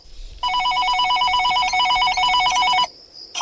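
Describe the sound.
A telephone bell rings in one long, steady, bright metallic trill of about two and a half seconds. After a short silence, the next ring begins.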